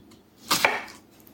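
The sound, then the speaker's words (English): A knife cuts into a large red onion with one short, crisp slice that stands out briefly against a quiet background. “So I'm just going to cut top off sliced down in half,”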